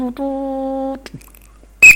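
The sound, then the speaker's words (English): A whistle blown as a demonstration of the end-of-game signal: a steady, sustained tone lasting under a second, then after a quiet pause a short, loud, shrill blast that is cut off at the end. “But that was the whistle, end of the game.”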